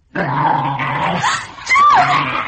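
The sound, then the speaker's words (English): A wolf growls in a low, continuous snarl lasting about two seconds. It wavers in pitch and grows louder toward the end. “Wolf! The children stood still, rooted in terror. In the cottage doorway stood an enormous wolf, yellow eyes gleaming, jaws open, and long white fangs glistening.”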